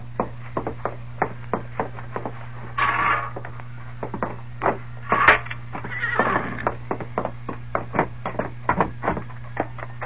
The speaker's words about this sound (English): Look at the horse that youngster rode from Mud Flats.